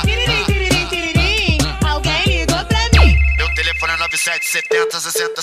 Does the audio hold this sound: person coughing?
no